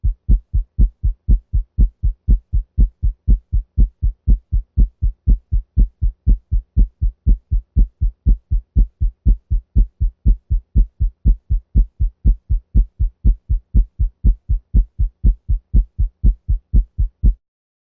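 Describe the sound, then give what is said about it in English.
Heart sounds through a stethoscope at the mitral area at 120 beats per minute, a fast, even run of many low lub-dub thumps with no pause between beats. “Now 120 beats per minute.”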